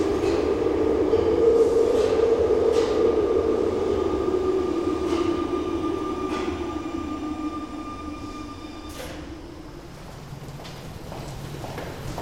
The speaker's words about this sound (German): In diesem Moment fuhr auf dem gegenüberliegenden Gleis 6 ein Zug ein, dessen Fahrtwind wahrscheinlich das Sarin überall verteilte.